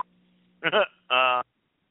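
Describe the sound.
Two short electronic beeps follow a faint steady low hum. The first beep is brief and slightly warbling. The second is a steady buzzy tone, both loud and clipped.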